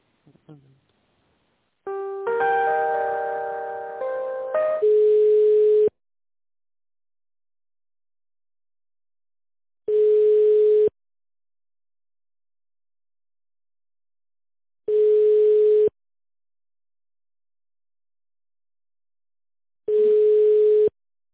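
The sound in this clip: Telephone line tones play while a call is transferred. A short melodic sequence of stacked tones comes first, followed by four steady, even beeps about five seconds apart. Each beep lasts roughly a second and is heard alone.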